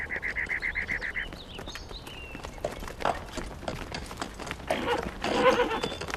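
Horse hooves clip-clop along a road in many steady, evenly spaced strikes at a walking pace, with a louder burst of noise toward the end.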